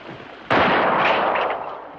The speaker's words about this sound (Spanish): El tiro le pasa rozando y vuelve a su refugio.